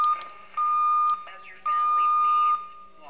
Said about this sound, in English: There's that deviation alarm again.